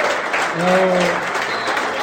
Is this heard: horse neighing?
no